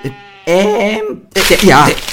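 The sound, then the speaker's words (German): A voice imitates an indecisive sheep bleating, with two loud, wavering bleats separated by a short pause and a trembling, quavering pitch. “Und wie macht eigentlich ein unentschlossenes Schaf?”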